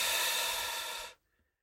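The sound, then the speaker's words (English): One deep breath during a calming exercise, a loud, steady rush of air that holds for about a second and then cuts off into silence. “Now take a deep breath in and out.”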